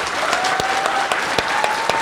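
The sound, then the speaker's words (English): An audience applauds a guest after a question session: a steady bed of clapping with several sharper, louder claps punctuating it at irregular moments, and no talking over it. “let's give a round of applause for Lois, please.”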